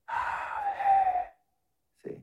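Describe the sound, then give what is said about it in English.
A person demonstrates a long, breathy exhale, a drawn-out voiced sigh lasting just over a second. After a pause, the short onset of another breath follows. “It would be like a breath. Breathe in. Exhale.”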